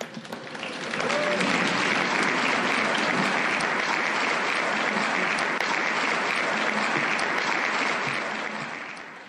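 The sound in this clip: An audience applauds to welcome the evening's speaker at a gathering. The clapping swells quickly after a quiet start, holds loud and steady for several seconds, then tapers off at the end.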